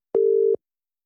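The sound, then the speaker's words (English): A single short telephone ringback tone sounds as a call back is placed: one brief, steady, mid-pitched burst that stops cleanly and is followed by silence, with no talk. “Let's try calling her back.”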